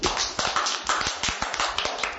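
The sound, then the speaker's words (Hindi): Children clap their hands in scattered, uneven bursts, with sharp overlapping claps at a moderate level and no talking. “ताली बजाने में तो होशियार है, ताली बजाने में पैसा नहीं लगता है”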